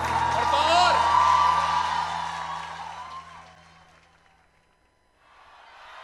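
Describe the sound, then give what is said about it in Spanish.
Audience applause for a participant on stage, mixed with loud whoops and shouted voices. The noise swells, then fades away to near silence before a short burst of clapping returns at the end. “Un aplauso para Emma.”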